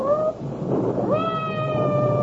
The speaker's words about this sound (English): I hope that cat isn't trapped somewhere.